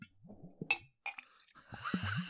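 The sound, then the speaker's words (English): Liquor glugging out of a bottle held near the mic: a few irregular gurgling bursts with wet, pitched bubbling, plus a couple of brief glassy clinks. No talk. “Can you guys hear the glug glug? Oh, we're running out of liquor. It's not making the same sound anymore.”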